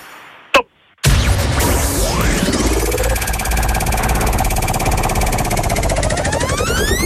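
A prize wheel spins for a radio game show. A brief click comes first, then a loud, continuous whirring clatter starts abruptly and keeps going to the end.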